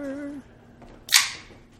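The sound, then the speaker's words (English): A gun being cocked gives one sharp, loud metallic click-snap, standing alone after a short stretch of low, quiet sound and then fading to near silence. “That was me cocking a gun because of that song.”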